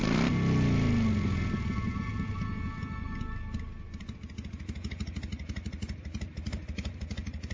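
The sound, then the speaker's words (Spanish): Motorcycle engine running with a loud, rough rumble for the first few seconds, then dropping to a quieter, steady throbbing beat with clattery mechanical pulses. “se subió a su motocicleta y con el casco bien ajustado, inició el viaje de regreso a su hogar.”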